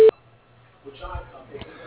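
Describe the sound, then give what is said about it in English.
Voicemail recording tone: a single short, loud beep at the very start, followed by a faint, low voice. “dialed does not answer. Please leave a message after the tone.”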